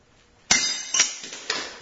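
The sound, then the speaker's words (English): Three sharp hammer blows drive a maker's stamp into a knife blade. Each is a bright metallic strike with a short ringing tail, spaced about half a second apart. “you've got to make sure that you are done with whatever modifications you're going to make to the blade before you stamp it. Just that's it? Yeah. Give it a good whack.”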